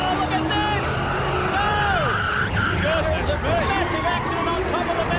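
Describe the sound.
Tyres squeal and skid in a race car crash at the top of the hill during a motor race, with wavering high screeches over a roaring engine and crowd chatter.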